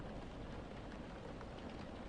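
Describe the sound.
Rain falling steadily, a dense, even hiss that stays faint and unchanging throughout, with no voices over it.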